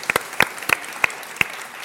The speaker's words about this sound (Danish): Ikke nødvendigvis kommunisten Karl Marx, men analytikeren Karl Marx, var det vi måske klappede for her.